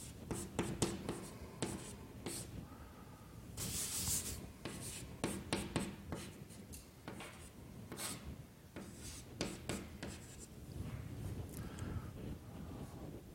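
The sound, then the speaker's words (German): Writing on a board: scratchy, rubbing strokes and small taps come in irregular bursts, fairly faint, with pauses between groups of marks and no talk. “Ich schreibe einfach dasselbe nochmal hin.”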